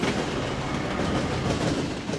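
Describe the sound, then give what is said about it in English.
A Metra commuter train crossing the tracks on Chicago's south side makes a loud, steady rumble of wheels with rail clatter. The sound is continuous and unbroken. “Some Norfolk Southern freight trains sit for hours waiting for Metra commuter trains like this one to cross.”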